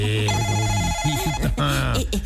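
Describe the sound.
A telephone ringtone sounds as a steady electronic tone, rich in overtones, before a call is answered. It is overlapped by voices talking throughout.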